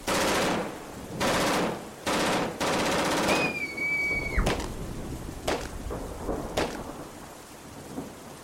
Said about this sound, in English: They're shooting at innocent people. I think they're just shooting at anything that moves.